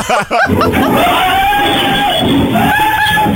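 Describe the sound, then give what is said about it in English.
A man screams for his life inside a liquor store, a long, strained, high wail held at a fairly steady pitch, loud over a layer of crowd babble and noise. “Now, this is a liquor store and a man screaming for his life.”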